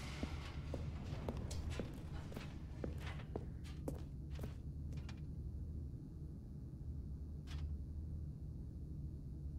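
Footsteps walking forward in the video game The Stanley Parable: Ultra Deluxe: many soft, fairly regular steps over a steady low hum that runs throughout.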